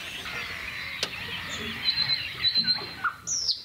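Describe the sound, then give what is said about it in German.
A nightingale sings at dawn in quiet countryside. A few short, high whistled notes and chirps rise faintly over a low, steady background hiss, clustered toward the end. “Da ist die Nachtigall.”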